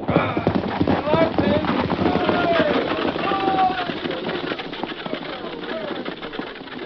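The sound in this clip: A horse-drawn stagecoach of a stage line carrying the United States mail sets off, with hooves clopping in a steady rhythm and a rolling rumble beneath. Men's voices talk over it.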